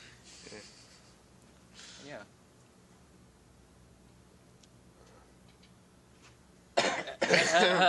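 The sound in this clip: Coughing from something stuck in the throat: two short, fairly faint coughs about a second and a half apart, followed by a stretch of quiet.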